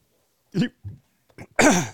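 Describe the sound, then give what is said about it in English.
A person choking and coughing after wolfing down pizza: several short, voiced coughing bursts, then a longer, louder strained cough. “excuse me, I just choked.”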